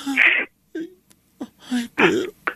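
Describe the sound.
A man cries, with short broken whimpers and sobbing wails separated by brief silences and gasping breaths.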